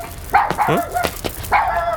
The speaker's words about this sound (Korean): 아니, 누가 따라오는 것처럼 짖네?